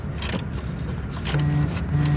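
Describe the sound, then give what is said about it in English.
Mechanical workshop sounds as a car alternator is tightened into place and its belts are pulled tight: steady gritty scraping and rattling, joined later by short, thin whirring tones. “I'm just tightening the alternator into place, getting the belts tight.”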